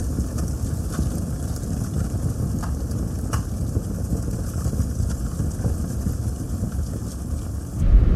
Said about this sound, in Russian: Дима едет в машине.